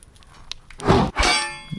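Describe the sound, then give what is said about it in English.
A sword strike parried in a video game by a blunt training blade, heard as two quick metallic hits. The second rings out briefly with a bright, sustained clang. “As you can hear, your attacks are easy for me to parry as long as I'm not trying to do something else.”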